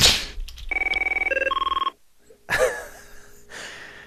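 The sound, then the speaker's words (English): A ringing office telephone, an AT&T Merlin, sounds a rapid electronic trill of warbling tones that step between pitches for over a second, with brief noises before and after. “Sounds like an AT&T Merlin phone.”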